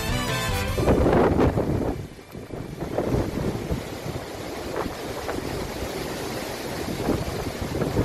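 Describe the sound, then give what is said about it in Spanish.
Storm winds and heavy rain roar in Pontevedra province, with gusts over 100 km/h. A continuous loud rushing noise carries heavy buffeting against the microphone and surges strongest near the start. “Este es el sonido de Kir, que nos está dejando intensas lluvias y vientos de más de 100 kilómetros por hora en algunos puntos de la provincia.”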